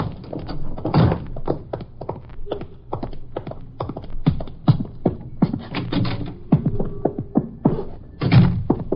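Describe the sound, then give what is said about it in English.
Footsteps climb noisy stairs as many irregular thuds and knocks, steady and fairly loud throughout, with a few heavier thumps. “It's upstairs. Oh. Ooh, noisy steps. There's no use trying to keep quiet.”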